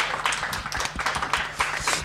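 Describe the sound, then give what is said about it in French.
Audience applause after a reading: many hands clapping in a dense, uneven patter at moderate level. “Merci à lui, vous pouvez l'applaudir.”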